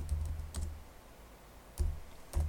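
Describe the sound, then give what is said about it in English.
Keys clatter on a computer keyboard as a search term is typed in, a few short bursts of quiet clicks separated by pauses, faint throughout. “I'm just gonna type in like e-commerce”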